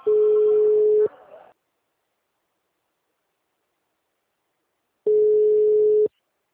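Ringback tone of an outgoing telephone call placed over VoIP: two steady, mid-pitched one-second beeps separated by about four seconds of silence.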